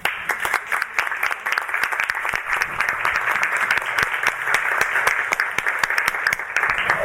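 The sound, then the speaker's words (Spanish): An audience applauds at a book presentation in a writers' library, with dense, steady clapping that holds at an even level throughout. “A quien la aplaudimos.”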